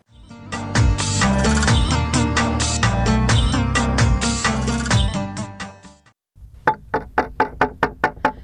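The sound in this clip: Knocking on a door comes after a stretch of loud, dense music. A quick, even series of sharp raps fills the last two seconds.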